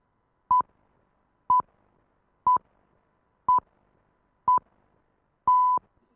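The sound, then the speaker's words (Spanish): Radio time signal pips marking twelve noon: six evenly spaced, high, pure beeps about a second apart, the last one held noticeably longer, with silence between them. “pitos limpios, ¿verdad? Y las 12 en punto del mediodía.”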